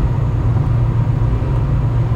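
Low, steady engine and road rumble of a car being driven, heard from inside, a loud unbroken drone with no breaks or change.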